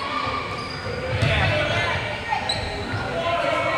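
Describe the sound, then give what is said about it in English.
Basketball bouncing during a women's basketball game, a few dull thuds under a steady murmur of crowd noise and voices. “In between, when there's not basketball happening, he's like shooting and dribbling and doing tricks.”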